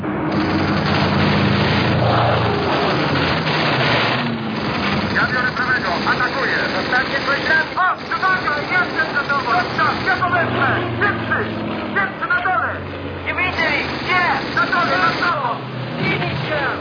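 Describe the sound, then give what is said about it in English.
Bomber aircraft engines droning overhead, a steady, loud roar that continues as men talk over it. “It's the bloody bombers we want.”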